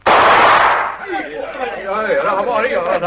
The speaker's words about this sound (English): Send a shot across the bow of the dinghy, Ginge.